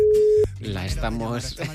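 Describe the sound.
A telephone line tone sounds while calling a guest: a single loud, level beep that holds steady, then cuts off abruptly, after which a voice talks.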